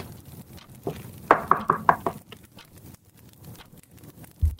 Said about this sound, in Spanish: Y llamo a la puerta.